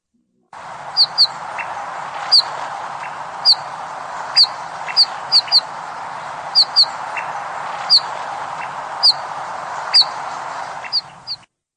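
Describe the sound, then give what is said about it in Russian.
Bullfinch calls ring out as many short, high, soft chirps at irregular intervals, spread across about eleven seconds over a steady low background hiss. “Снегири.”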